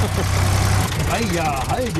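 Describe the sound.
A tractor engine is revved: a steady low idling drone gives way to an engine note that swells and sags in pitch several times as the throttle is worked.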